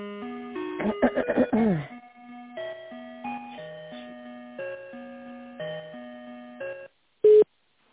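Electronic telephone tones play while a call is transferred: a string of steady, held beeps in a simple melodic pattern, opening with a quick flurry of notes, then a short pause and one last sharp beep.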